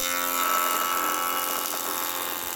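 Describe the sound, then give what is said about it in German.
An old band saw from around 1930–1940 runs in a carpentry workshop, giving a steady, dense buzzing whine rich in high harmonics that holds at an even loudness throughout. “Das ist eine Bandsäge und die ist ungefähr von 1930, 1940. Ist zwar jetzt nicht auf dem neuesten Stand der Technik, aber sie sägt wie eine Biene.”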